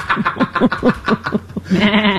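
A ram bleating: a rapid run of many short, wavering bleats in a quick pulsing rhythm, ending in a longer, sustained, quavering bleat.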